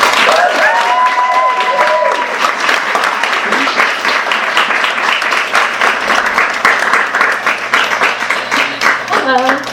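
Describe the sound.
Audience applause at a bookstore welcoming two authors, a dense, steady clapping that holds at an even, loud level for about ten seconds before easing slightly.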